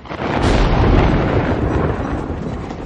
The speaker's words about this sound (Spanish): Un relámpago ilumina la estancia.